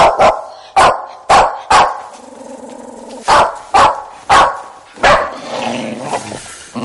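A dog growls and barks at a child, with loud, sharp barks in repeated bursts and a lower, rumbling stretch between them. No voices are heard.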